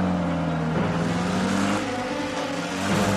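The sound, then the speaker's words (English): An MG car's engine as the car drives away: a loud whirring, revving drone with shifting pitch, alone with no voices. “Well, that's the first tramp I've seen behind the wheel of an MG. Pulls a gun, shoots at Hastings, then leaps into a blooming car and drives away.”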